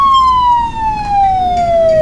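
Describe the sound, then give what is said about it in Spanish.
An ambulance siren sound effect: a single loud, steady wailing tone that slides gradually downward in pitch, heard alone with no other sounds. “Perfecto sonido de entrada y ambulancia.”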